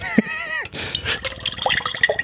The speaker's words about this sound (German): Ich gieße es mal. Ich gieße es mal. Gieß es mal direkt mal so ein bisschen.